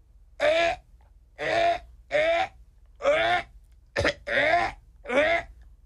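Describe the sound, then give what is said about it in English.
A person's voice imitates a dog choking and coughing, producing seven hoarse, strained bursts, one of them very short, separated by brief silences. “I didn't give you much to work with there. I just made choking sounds and, like, coughing.”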